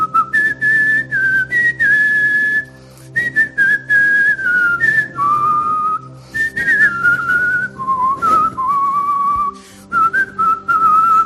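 A person whistles a song in clear, bright melodic phrases, gliding between notes and breaking briefly for breath before the tune resumes. The whistling is fairly loud and heard alone, with no talk.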